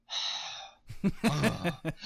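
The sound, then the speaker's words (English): A voice imitates EastEnders character Phil Mitchell breathing out and deflating: one long, breathy, huffing exhale, then talk and voice sounds follow. “has anyone ever wondered why Phil Mitchell is always deflating or something like that? And it's just a constant series of clips of him just going,”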